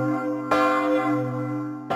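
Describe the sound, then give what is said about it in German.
A church bell is struck by its clapper twice, with sharp metallic blows at the start and near the end. A deep, sustained ring of layered tones hangs between the strikes, and no voices are heard. “Wenn der Klöppel auf die Glocke schlägt, dann ist das für die Glocke eigentlich eine ziemlich heftige Beanspruchung”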